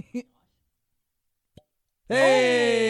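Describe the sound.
A cork popping out of a bottle, a brief, soft plop that sounds fairly weak, with another tiny click later and then a voice.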